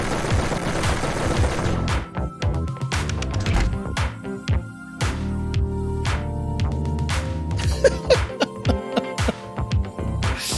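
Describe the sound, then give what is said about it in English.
Heavy machine gun fire from the Metal Slug video game rattles in rapid, choppy volleys, loud bursts mixed with other game sounds. “Heavy machine gun.”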